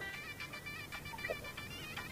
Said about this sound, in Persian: میریم نخستین تماس وصل میسازیم، بشنیم کدام عزیز ما هست، از کجا تماس گرفته